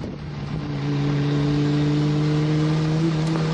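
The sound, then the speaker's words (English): A Ferrari sports car drives up a road, its engine a steady droning note that swells louder over the first second, then holds at an even pitch and volume. “We're sharing the road with bikes, bicycles, and a couple other Ferraris that we're going out for a drive today up from the coast up to Palomar Mountain.”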